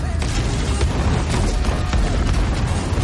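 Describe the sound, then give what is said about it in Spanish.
Rocket test launches of a Redstone rocket exploding in flight give a loud, dense, continuous rumbling roar, heavy in low bass, with booms and crackling bursts blending together throughout and no clear separate blasts. “Diferentes pruebas del lanzamiento del cohete Redstone. Todos explotan en vuelo.”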